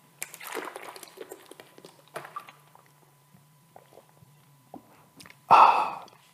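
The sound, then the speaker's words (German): A sip from a Volvic natural mineral water bottle: faint clicks and handling noises, then a short, louder slurp near the end. “Ich muss einen kurzen Schluck nehmen aus der Volvic natürliches Mineralwasserflasche.”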